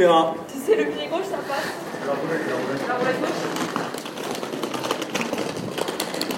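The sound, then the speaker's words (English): A wheeled carry-on suitcase is towed along, its steady low rolling rumble running throughout while a person talks over it. “Now, curiously, people have just walked past me, and you can hear the suitcase being pulled along. That's a sound I haven't heard for a long time. The carry-on suitcase with wheels being towed along”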